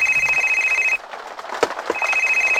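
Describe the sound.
Telephone ringing with a steady electronic tone that rings, stops for a moment, then rings again.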